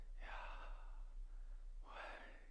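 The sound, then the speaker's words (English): Two breaths drawn in at a natural pace, with a soft airy hiss on each and a quiet pause between them. No other sound is heard. “When we breathe in, just naturally here,”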